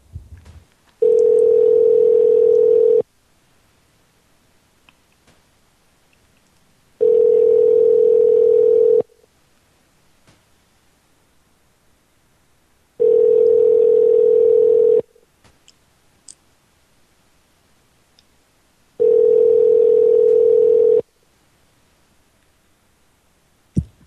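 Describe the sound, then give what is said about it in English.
Ringback tone of a telephone call waiting to be answered: four long, steady, mid-pitched tone bursts of about two seconds each, separated by equal silent gaps, with no voices. “See if we can hear his phone ringing in the background.”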